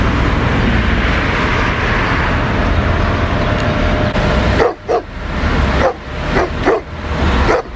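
Stray street dogs barking in a parking lot: several sharp barks break out in the second half, following a steady wash of background noise.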